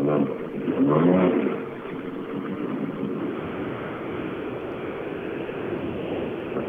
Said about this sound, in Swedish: Mm, vi rullar ner. Corolla på väg fram här.